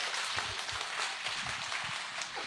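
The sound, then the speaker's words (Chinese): Audience applause at a Bible teaching session, a dense, rattling patter of many hands clapping at once, steady and moderately soft throughout. “给他们一个掌声哈，太棒了哈。”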